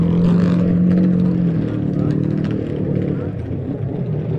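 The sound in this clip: Racing motorcycles, among them a small Honda K4 350, rev loudly together in a continuous, rough engine roar whose pitch wavers as throttles open and ease, fading slightly toward the end.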